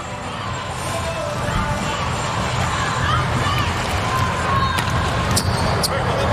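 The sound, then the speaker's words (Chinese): Volleyball serve and rally in an arena, set against a loud, unbroken crowd roar and babble, with a few sharp ball strikes standing out near the end. “莱曼斯基的发球，”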